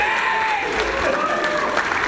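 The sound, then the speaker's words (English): Audience applause breaks out as a guest is introduced: dense, steady clapping from many hands, fairly loud and even throughout, with no voices rising above it. “Wait, why did no one applaud Dave?”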